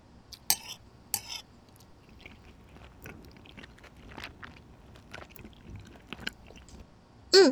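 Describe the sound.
Faint chewing and biting of food while tasting it, with soft scattered mouth and crunch sounds and a few sharper clicks, with no talking.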